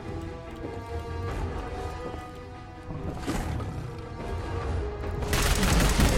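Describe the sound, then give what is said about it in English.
Gunfire from a focused fiery institute rifle in a video game makes a dense, crackling wash of blasts that swells louder toward the end, with no clearly separate shots. “The focused fiery institute rifle.”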